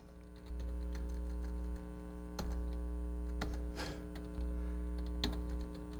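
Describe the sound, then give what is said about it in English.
Keyboard typing on a computer: a few sparse, sharp key clicks scattered over a loud, steady mains hum, with no voices. “So I'm having to type this back up.”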